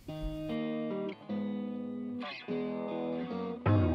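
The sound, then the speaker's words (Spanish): A distorted electric guitar plays a heavy, effects-laden version of a classic Christmas carol. Buzzing, sustained chords change about every second with brief gaps between them, and no voices are heard. “con su estilo, con su fuerza guitarrera y distorsión”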